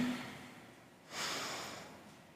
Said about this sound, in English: as you take deep, supported breaths that fill your whole body, release that tension. Breathe in.